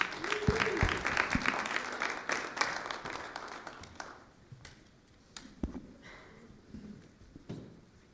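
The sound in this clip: Church audience applause welcoming guests to the front: loud, dense clapping for about four seconds, then thinning out into scattered, fading claps.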